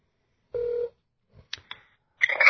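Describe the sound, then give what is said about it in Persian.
A telephone ringing while a call is placed to a listener: one short steady ring tone, then a few faint clicks before louder sound on the line. “بذاریم من تلفنشو بگیرم، چون قول دادم که تلفنشو بگیرم”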